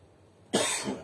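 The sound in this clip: A single short cough bursts out after a quiet pause, a sharp onset followed by a brief rough tail, with no talking around it.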